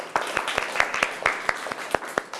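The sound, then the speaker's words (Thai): Students in an exercise class clap for themselves after a warm-up routine, a group of hands striking in a steady, regular rhythm of sharp, distinct claps from start to finish. “เอาปรบมือให้ตัวเองหน่อย”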